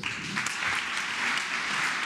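Applause from a packed audience of business leaders and politicians at Mexico's presidential palace, greeting the foreign minister. Steady, dense clapping continues evenly throughout at moderate volume.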